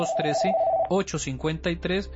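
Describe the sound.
Telephone ringing with an incoming call, a steady ring tone lasting under a second beneath a voice, then speech carries on alone.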